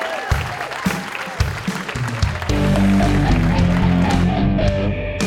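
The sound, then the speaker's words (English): An audience applauds to welcome the Dazzle Dudes onstage, with a burst of clapping that swells into a dense, sustained roar of hands and crowd noise. “So come on, everyone, put your hands together and welcome the Dazzle Dudes!”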